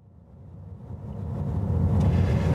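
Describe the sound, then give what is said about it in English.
A car drives up the road to Stonehenge. Low engine and road rumble grows steadily louder and fuller, with no talking. “I'm driving up to Stonehenge now.”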